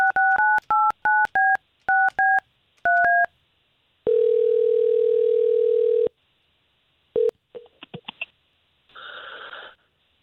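Telephone keypad tones as a number is dialed: a quick series of short touch-tone beeps, then a steady line tone lasting about two seconds, followed by a few faint clicks and a short burst of noise.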